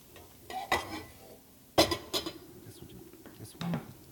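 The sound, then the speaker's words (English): Clattering of a pan being handled on a stove while cooking, as it is readied to heat with oil: a few sharp metallic knocks and clinks, separated by quieter scraping and shuffling. “So next we need a pan hot with some oil. Okie dokie. Pan hot with some oil.”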